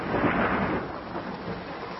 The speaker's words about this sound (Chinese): 这冰雹怎么下不停啊？